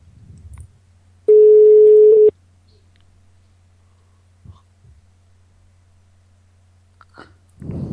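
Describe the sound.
Telephone ringback tone from an outgoing call: a single steady, mid-pitched tone lasting about a second, then near silence broken by a few faint clicks and a soft rustle at the end.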